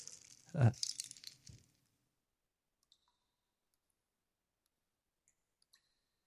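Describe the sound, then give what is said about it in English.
Dry crinkling and clicking from hands handling a dried cactus skeleton holding beans: a short, loud burst of brittle crackles and rattles lasting about a second and a half, then near silence with a few faint ticks. “It's like I got a cactus skeleton. I'm playing with the skeletons of a cacti. And I don't know, what are those, beans? Are they beans?”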